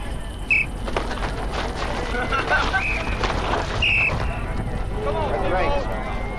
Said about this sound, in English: I will blow the whistle to start you and also to stop you.